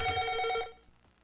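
Telephone ringing for an incoming call on a call-in line: one short, bright, trilling ring burst that cuts off after well under a second and leaves only a faint low murmur.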